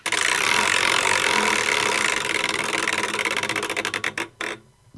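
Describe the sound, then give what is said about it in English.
A game-show prize wheel spins, its rapid clicks blurring into a loud, dense rattle that gradually slows into distinct ticks, spacing out further until it stops. “I feel like another spin of the wheel. Let's go over, see what happens.”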